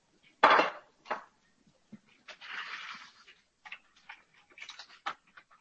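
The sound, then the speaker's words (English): Metal tongs lift cooked pieces out of an air fryer basket: a few sharp metallic clicks and taps, a brief scraping rustle, then more light clattering, all fairly quiet. “Let me get our tongs here, and we'll lift these out of the fry basket.”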